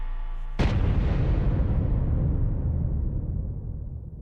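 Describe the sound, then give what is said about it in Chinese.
A single massive blast from a full-scale detonation test in China's nuclear weapons program bursts out of a low steady hum, then rumbles on in a long, slowly fading roar. “6月6日下午5时左右，全尺寸爆轰试验准时点火。”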